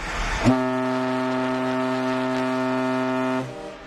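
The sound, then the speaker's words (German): A Norwegian coastal mail ship's horn, on the Bergen to Kirkenes route, sounds one long, loud, steady blast. The tone is deep and rich, holds level for about three seconds, then cuts off. “Wir gucken jetzt mal oder wir hören jetzt mal, wie unser Schiff so klingt. Hier ist unser Tuten.”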